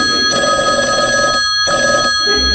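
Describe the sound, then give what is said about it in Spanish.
A telephone bell rings in a loud, bright metallic jangle, sounding in repeated bursts separated by short pauses. “en Nueva York comienza a sonar el teléfono”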